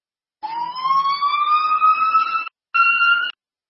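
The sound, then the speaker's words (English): An emergency siren sounds loudly as a steady wailing tone that rises slightly over about two seconds, then breaks off briefly and returns as a shorter second blast at a constant pitch. “Sorry about the siren.”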